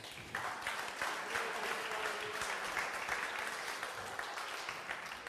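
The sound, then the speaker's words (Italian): Audience applause swells up after a brief quiet start, then settles into a thick, sustained rattle of many clapping hands that carries steadily to the end. “E sono bravi però, eh? Fategli un applauso.”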